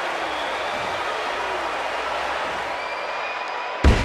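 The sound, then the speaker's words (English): A wrestler is slammed onto the ring mat in a double arm slam off the top rope: one sharp, heavy thud near the end after a long, steady wash of crowd noise. “Double arm slam off the top rope.”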